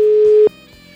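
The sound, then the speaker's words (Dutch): A telephone dial tone sounds as a call is placed: one loud, steady, pure tone that holds for about half a second, then cuts off abruptly, leaving only a faint hum. “En dan bellen we met de VVV Putten.”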